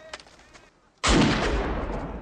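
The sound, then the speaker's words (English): A pistol fires one sharp, loud shot during a fast reload-and-fire drill, cutting in after a near-quiet stretch of faint clicks, with a dense, roaring wash of noise hanging on to the end. “And he's firing the pistol in his ear because he's saying,”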